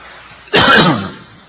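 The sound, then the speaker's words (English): A single harsh cough bursts out abruptly and loudly, a rough throaty rasp that tails off over about half a second, with no talk around it. “Our cameraman's coughing and I'm coughing.”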